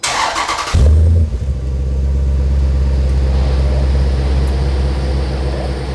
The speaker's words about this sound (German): Gib mal Gas. Ganz anderer Klang.